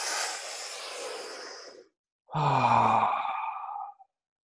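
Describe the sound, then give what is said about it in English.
A deep breath through the mouth during a group breathing exercise: a long airy breath, a short pause, then a strong voiced sighing exhale that fades out at the end. “Let's take a big breath in right now, through the mouth. And exhale.”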